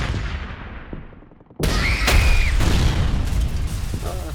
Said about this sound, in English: Hostile infrastructure. Airstrike now.